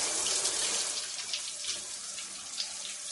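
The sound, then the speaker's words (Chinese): Water runs from a tap to rinse soap foam off a person's body: a continuous, fairly faint hissing splash with small irregular spatters and no talk. “让我先帮你把泡沫冲洗掉，”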